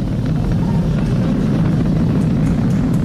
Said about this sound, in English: Vehicle is supersonic. We've exceeded Mach 1 on the Falcon 9.